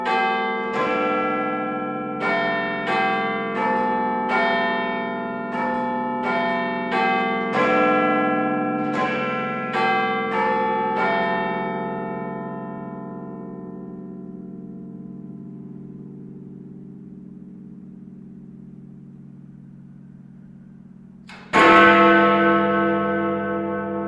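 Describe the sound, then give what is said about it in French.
The great clock tower bells in London chime a long melodic sequence of ringing notes that slowly fade, then after a pause a louder, deeper strike of the hour bell begins. “comment ne pas se régaler de Big Ben?”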